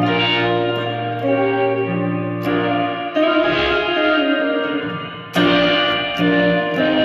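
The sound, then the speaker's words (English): Sustained musical tones run through a reverb effect with long pre-delay, blending wet and dry signal; notes and chords ring out with lingering, washy tails, punctuated by a few sharp new attacks. “Let's see, you got pre-delay short, Turn that to long. That's awesome. Let's do wet and dry.”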